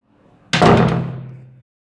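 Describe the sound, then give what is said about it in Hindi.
A kitchen door slamming shut: one sudden, loud, heavy bang with a brief rumbling decay that dies away within about a second. “रसोई का दरवाज़ा धड़ाम से बंद हुआ।”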